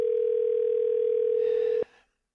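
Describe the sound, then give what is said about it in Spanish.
Telephone ringing tone on an outgoing call: a single steady, low electronic tone held for nearly two seconds, then abruptly cut off. “Vamos a ver si contesta el teléfono.”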